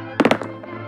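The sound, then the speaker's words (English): Dice rattle during a board game of armies and territories. A quick burst of sharp clattering knocks is followed by lighter rolling taps, with a steady low hum underneath. “That's the sound of the dice rolling. It kind of sounds like cannon fire, so that's cool.”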